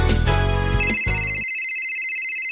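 A bright electronic telephone ringtone sounds loudly for an incoming call, a steady multi-tone ring whose lower tones cut off partway through, leaving a sustained high tone.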